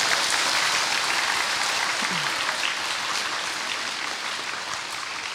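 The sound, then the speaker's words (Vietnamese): Loud, sustained applause from an audience at a retreat. The clapping is dense and continuous and eases slightly toward the end. “Mà không phải người nào cũng 60% mà vỗ tay rầm rầm.”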